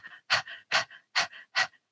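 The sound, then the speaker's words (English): Rapid, rhythmic panting demonstrated as a breathing exercise, with quick breathy bursts at a steady pace, each a sharp, loud exhale with a softer breath after it, separated by short silences. “if people are not comfortable just doing it through their nose, I tell them it's like a panting.”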